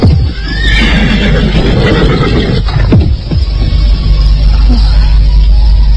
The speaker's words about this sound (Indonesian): Samar-samar dia mendengar derap seekor kuda, semakin lama semakin dekat.